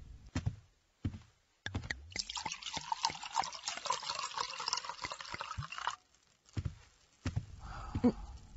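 Water poured into a cup for a feverish man to drink: a few brief knocks and drips, then a steady pour of several seconds, followed by a pause and a few more light clinks and trickles.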